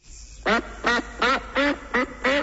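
A white duck with a thin black line down its neck quacks six times, loud, nasal and evenly spaced, with nothing else around it.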